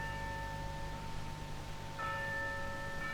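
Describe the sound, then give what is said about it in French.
A convent church bell rings for the hour of None. It strikes once partway through, and its steady ringing tones hang faintly over a low rumble. “On entend sonner nonne.”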